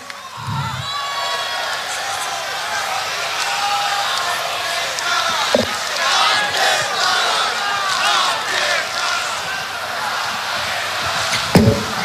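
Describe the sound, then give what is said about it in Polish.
Festival crowd at Pol'and'Rock (formerly Woodstock) in Poland cheering and applauding the event crew, a sustained dense roar of voices and clapping that stays loud throughout, with a few brief thumps. “Nagrodźcie ekipę brawami. Dzięki nim zawsze czujemy się tutaj po prostu bezpiecznie.”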